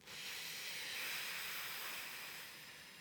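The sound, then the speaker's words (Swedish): A slow exhalation through pursed lips, the air pushed out gently against the lips' resistance as a steady soft hiss lasting about three seconds that eases slightly at the end, with no talking. “så kan man lägga ett litet motstånd med läpparna när man andas ut. Så att man liksom silar ut luften så det går lite långsammare.”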